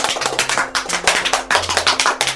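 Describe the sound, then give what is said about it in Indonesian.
Clapping for children in a classroom lesson after they trace the letter R in the air: many sharp claps in a quick, fairly regular rhythm, moderately loud, with no talk over them. “Tepuk tangan untuk semua.”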